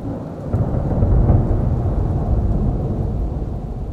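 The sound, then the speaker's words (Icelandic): Thunder rumbles through a storm with rain in Iceland, a loud, continuous low roll that swells over the first second and a half and holds steady to the end, with no voices. “Ekki á hverjum degi sem að þrumur og eldingar mæta með læti á Íslandin okkar góða.”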